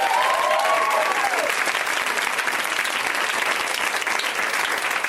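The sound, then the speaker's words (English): Loud, steady audience applause for a couple, with dense clapping and some crowd noise that holds at an even level for the whole five seconds. “Oh, well, hey, let's hear it for that couple.”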